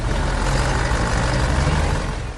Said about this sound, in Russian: Одна за другой подъезжают тургруппы, и гиды пытаются перекричать шум моторов.